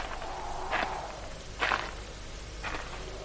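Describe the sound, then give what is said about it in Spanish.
A charred wooden wagon is kicked at the wheel and collapses into pieces, heard as three dull, breaking thumps spaced roughly a second apart over a low, steady background. “Se acerca a una carreta carbonizada y le da una patada a una rueda. El vehículo cae hecho pedazos.”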